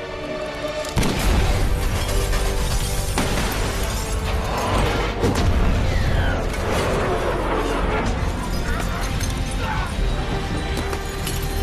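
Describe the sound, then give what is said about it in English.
A gunshot shatters a window in a video game: a sharp crash near the start, then dense, loud rumbling and clattering game noise with several more bursts throughout. “Oh, he shot the window open.”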